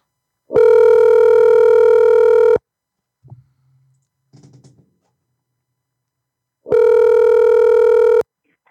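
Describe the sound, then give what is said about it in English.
A telephone dial tone hums loud and steady for about two seconds, followed by a few faint, short button-like sounds while a call is dialed, then the steady tone returns for another stretch. “Here we go, guys. Let's call Steve.”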